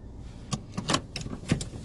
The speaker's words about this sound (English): Sorry, we're in the car driving, so we're kind of distracted.